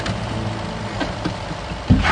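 Low, steady engine rumble from a haulage truck pulling up and idling as rain falls heavily, a continuous hum with a few faint knocks and a slightly louder bump near the end.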